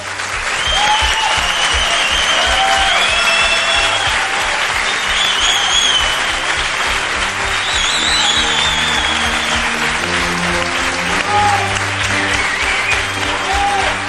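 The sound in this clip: Audience applause fills a university auditorium in Málaga during a fantasy film week: many hands clapping in a loud, dense, even wash that lasts the full length, with no talk on top.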